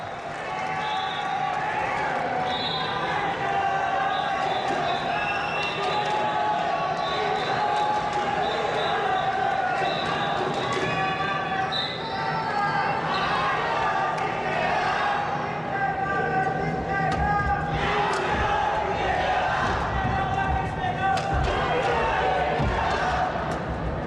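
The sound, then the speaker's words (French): Tennis crowd in the stands cheering and pressing at a tense moment in the match: a loud, sustained roar of many voices with shouts and claps rising and falling, under continuous talk. “Et le public là qui appuie là où ça fait mal.”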